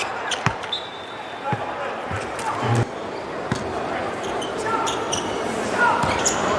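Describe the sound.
Basketball dribbled in a figure-eight pattern during a professional game: a series of sharp, irregular bounces thump under ongoing commentary and arena noise.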